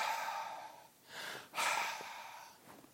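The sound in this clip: A voice imitates someone breathing outside a window screen with a few drawn-out, hissy breaths, faint and alone.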